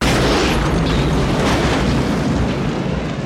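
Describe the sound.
A self-driving taxi loaded with barrels of gasoline crashes into a wall and explodes, heard as a loud, sustained, roaring blast that stays steady throughout with no pauses.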